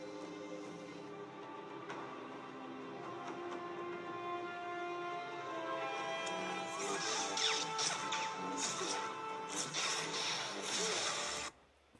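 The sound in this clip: Lightsaber blade strikes from a Star Wars duel between Anakin Skywalker and Ahsoka: a steady buzzing, tonal blade hum runs throughout, then a rapid run of many crackling clashes piles up in the second half before cutting off abruptly.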